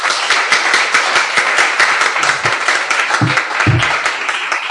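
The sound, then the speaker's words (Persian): An audience applauds at a Congress 60 gathering to honor a champion called to the front. The dense clapping is loud and continuous, with a few heavier thumps near the end. “خواهش میکنم تشریف بیارم افتخارشون دست بزنید.”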